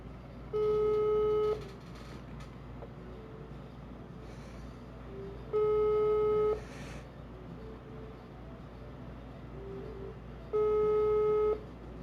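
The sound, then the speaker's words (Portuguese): A telephone ringback tone sounds while a call to a friend goes through. Three steady, evenly spaced tones of about a second each are separated by long quiet gaps. “Vou ligar aqui pro Heitor Ferrer, só um instante.”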